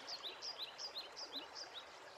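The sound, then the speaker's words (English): Running water and birdsong in the gardens of the Inca mill: a soft, steady flow runs beneath many rapid, repeated high chirps from a bird, quiet overall. “The sound of running water will be joined by the singing of numerous birds that inhabit the Inca mill, among hawks, owls, and parrots.”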